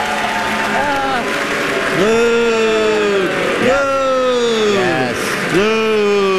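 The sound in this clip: Canned applause and cheering from a studio audience sound effect on a quiz show, loud and steady throughout, with voiced whoops rising and falling above the clapping.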